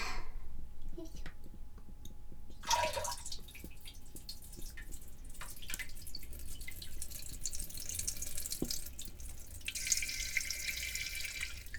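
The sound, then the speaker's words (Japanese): A person urinating: a faint, steady trickle of water splashing, with a few scattered drips. “ではおしっこします。”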